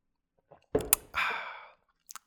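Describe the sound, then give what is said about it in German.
Hot, strongly brewed coffee is sipped in an office: a couple of short lip and cup clicks lead into a sustained slurp, and a few faint clicks follow. No one speaks. “mein Kaffee wird eh kalt, also nehme ich jetzt mal einen Schluck Kaffee.”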